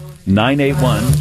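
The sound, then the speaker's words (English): Bacon sizzling in a pan: a short burst of hissy frying crackle, heard together with a voice for just over a second. “We call this the Phil Flash Fry. Smell that bacon sizzling.”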